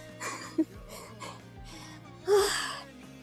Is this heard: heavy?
yes